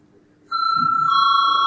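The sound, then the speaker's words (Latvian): A bell rings in a parliament chamber to call members to a vote. After a brief quiet moment it starts abruptly, then holds a bright, steady electronic ringing tone to the end. “Lūdzu zvanu.”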